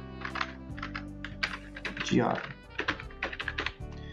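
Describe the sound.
Typing on a computer keyboard: many quick, sharp key clicks in an uneven rhythm, with a voice talking at moderate level alongside the keystrokes.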